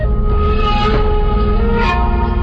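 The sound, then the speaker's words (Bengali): Train travelling on rails on a journey in Bangladesh, a loud continuous rumble with faint steady whining tones running through it, unbroken from start to finish. “Dhaka থেকে ট্রেনে করে আমরা পৌঁছাই নোয়াখালীর মাইজদিতে।”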